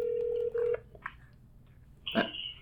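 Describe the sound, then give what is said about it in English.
A telephone call ringing out: a steady electronic ring tone sounds for under a second and stops, followed after a pause by a short burst of higher-pitched tone. “I got one more person to call, and I got to call this guy. I got to call this man. I hope he answered the phone.”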